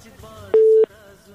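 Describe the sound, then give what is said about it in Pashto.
A telephone busy tone sounds after a phone-in call drops: one short, steady mid-pitched beep stands out loud and alone against a faint low background. “له بده مرغه چې د همدرد صاحب اړیکه پرې شوله”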